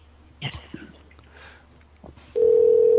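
Telephone numbers are dialed: a few brief taps and blips come first, then a loud steady tone begins and holds unbroken to the end.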